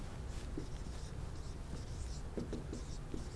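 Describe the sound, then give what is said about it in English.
A drawing is erased from a board during an astronomy lecture, producing soft, faint swishing and rubbing strokes that come in a few irregular passes. “OK, I just erased my picture there so I could write.”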